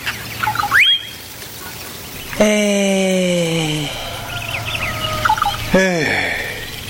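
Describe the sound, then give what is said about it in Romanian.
Turkeys gobbling, with a few loud harmonic calls that slide downward in pitch, a long one midway and a shorter one near the end, mixed with brief higher chirps. “se audă cum cântă pipalacile”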